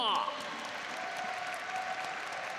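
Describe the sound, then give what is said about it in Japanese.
Audience applause fills the venue at an Apex Legends esports tournament, a soft, continuous, dense clapping that stays level throughout. “さあ会場からも大きな拍手が湧いています”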